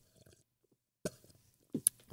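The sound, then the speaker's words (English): A voice imitates a creature sipping soup with a few short, breathy slurping bursts after a near-silent start, quiet overall. “You just hear this sound of sipping, just like this.”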